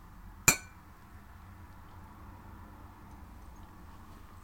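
Glasses clinking in a toast: one bright, ringing strike early on that decays quickly into a low, quiet background hum, with a second brief sharp hit cut off at the very end.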